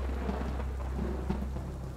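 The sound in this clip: A rain and wind storm fills the air with a dense, continuous wash of falling rain, a deep low rumble running steadily beneath it, fairly quiet and unchanging throughout.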